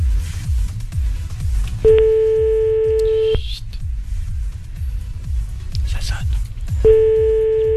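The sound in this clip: A telephone call rings out: two long, steady, mid-pitched ringback tones, each lasting over a second and separated by several seconds of quiet, over a low, rhythmic pulsing background.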